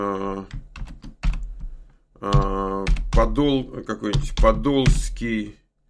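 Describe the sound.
Typing on a computer keyboard: a few sharp key clicks at first, then steady taps that continue under a person talking.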